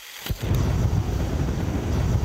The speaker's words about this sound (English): It might make you imagine a jet engine, but it's actually roaring methane set on fire as it leaks from a melting bubble.